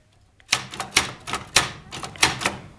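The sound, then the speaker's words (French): Typewriter keys strike in a brisk, uneven series of sharp, crisp clacks after a brief quiet start, each key hit ringing out separately with no voices. “Maintenant, j'ai une machine à écrire.”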